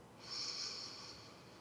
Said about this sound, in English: As we take a deep breath in,